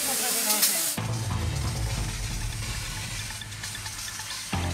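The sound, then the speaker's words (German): Fire hose spraying water onto burning rubbish at a fire: a loud, steady hiss and rush of water that starts abruptly after a short moment and continues without a break to near the end. “Wir müssen jetzt erstmal hier massiv Wasser draufhalten. Es brennt massiv Unrat.”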